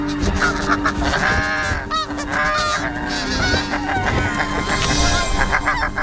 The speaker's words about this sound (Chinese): 为争夺最安全的筑巢点，两对雪雁夫妇展开了激烈的争斗。